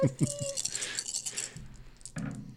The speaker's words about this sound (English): Why did you roll six dice? Because he had a natural 20.